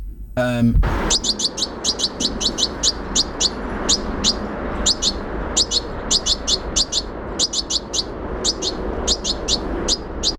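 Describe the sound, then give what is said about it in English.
Juvenile goldfinch calls: many short, high, twittering chirps in quick clusters, repeating steadily over a low, constant background noise. “So that's the juvenile goldfinch.”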